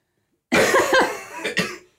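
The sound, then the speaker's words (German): Coughing from someone who has just choked on something, a few harsh, breathy bursts packed close together, loud at first and easing off toward the end, with no talk. “Warte, ich lass mich noch einmal husten.”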